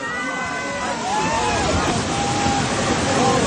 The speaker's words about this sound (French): Ce que vous entendez là, c'est le bruit là d'un flanc de montagne entier qui s'effondre.